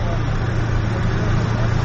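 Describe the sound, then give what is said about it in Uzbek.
Cars idle in a traffic jam at a border crossing near Samara, producing a steady, continuous low engine rumble with an even drone throughout. “Biz Samara Mashtakova chegarasida tirbandlikda qolib ketdik.”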